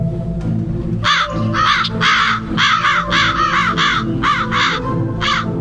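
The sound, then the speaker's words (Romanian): Crows cawing as a flock flies over a field in front of a railway station, with many harsh, repeated caws in quick irregular succession over a low steady background hum. “Între mine și dumneavoastră trec cârduri de ciori care zboară peste câmpul din fața gării”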